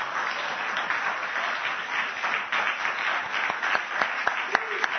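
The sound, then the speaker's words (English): Audience applause for program participants at a church service: a dense, steady wash of clapping from many hands, with a few sharper individual claps standing out near the end. “The people that were in the program, please come up here. If you want to clap for them now, you're welcome to do so.”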